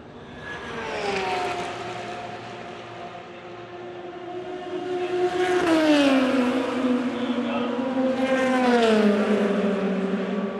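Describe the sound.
Race cars run on the racing circuit at Fuji Speedway, their engine whine sweeping down in pitch as each car passes. A few loud passes rise out of a continuous engine drone.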